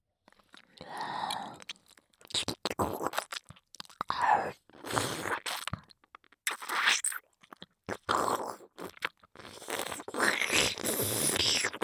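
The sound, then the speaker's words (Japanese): Wet chewing and crunching mouth sounds in irregular bursts with short pauses between them, moderately loud and close, with no talk. “咀嚼させていただきます。”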